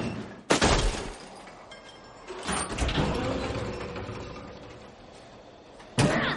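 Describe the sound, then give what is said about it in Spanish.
Falling into a huge metal garbage container at an abandoned amusement park: a sharp heavy bang, then a long rumbling clatter that slowly fades, and another loud bang near the end. “Paran. Caen en un enorme contenedor de basura.”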